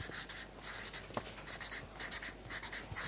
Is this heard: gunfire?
no